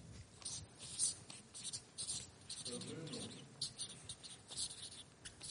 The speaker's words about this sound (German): aber ich schreibe es mal bewusst auf